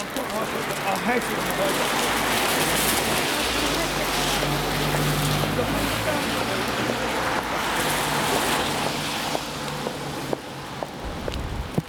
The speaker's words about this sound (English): It's rather nice being out in the rain.